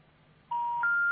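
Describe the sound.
Telephone line tones while calling a number: after a faint hum, three steady electronic tones follow one another, each higher in pitch than the last, clear and moderately loud.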